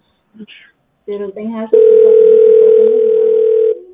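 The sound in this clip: A steady telephone tone sounds on a line during a phone network test, holding level for about two seconds on its own after brief talk.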